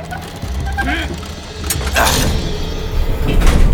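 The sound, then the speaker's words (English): A hidden lift descends inside a fake tree with a steady, loud mechanical rumble and whirr. A few sharper clanks and scrapes come through the continuous noise. “The tree was covering. I believe they call it a lift. A hidden elevator going down?”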